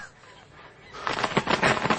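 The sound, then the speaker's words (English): A big goose being fattened for market squawks harshly as it is caught. Loud, rapid, rough honks and cries burst out after a quiet start and keep going in a flurry. “Come here, you... Stand still, you stupid bird! Ah, now I've got you.”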